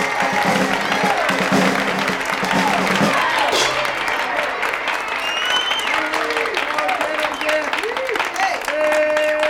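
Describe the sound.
Loud, sustained applause from the audience at a comedy event, with voices calling out over the clapping throughout.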